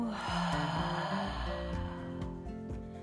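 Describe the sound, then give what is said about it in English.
A slow, deep breath drawn in and then let out, soft and airy, during a relaxation exercise, faint and unhurried over a quiet background of steady tones. “Take a deep inhale with me and just let it go.”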